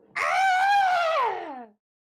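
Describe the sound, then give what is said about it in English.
A woman screams as she falls, tumbling in a tabletop role-playing game. A single loud, sustained wail holds steady, then slides downward in pitch as it fades out. “Okay, she lets out a scream,”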